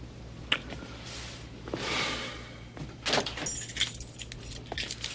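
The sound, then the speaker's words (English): Car keys jangle in a few short, bright metallic bursts, with quieter rattling between them, over a steady low hum. “I need your car keys.”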